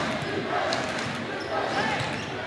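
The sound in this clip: Basketball dribbled during a game, a player working the ball on the right wing with a through-the-legs move and nearly losing it, the bounces buried in a constant, loud wash of arena crowd noise.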